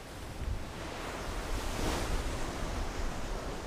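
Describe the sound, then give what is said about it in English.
Wind picking up aboard a fishing research ship, a steady broad rush blended with the wash of the sea, swelling slightly in the middle and holding even throughout. “The wind is starting to pick up.”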